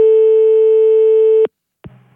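Telephone busy tone after the line is hung up: one long, steady, loud tone that cuts off abruptly, followed by a short pause and a brief, faint low sound.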